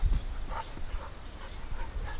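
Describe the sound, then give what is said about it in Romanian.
A few short barks and whimpers from village dogs playing with a caretaker in the courtyard of a Unitarian parish house. They are fairly loud over a steady, noisy background. “căței din Roșia care vin să se joace cu paznicul Paulică”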